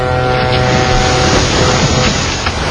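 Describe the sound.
Boat engine in a video game, a loud, steady rumbling drone with a washing, water-like hiss that runs unbroken for the whole stretch, with no clear voices over it.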